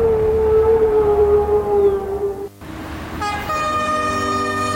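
A train on a railway sounds its horn in a long sustained tone over low rumbling, cuts off briefly, then sounds a second, brighter horn blast that holds to the end.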